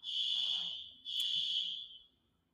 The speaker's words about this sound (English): My fire alarm just went off. I was wondering what that sound was.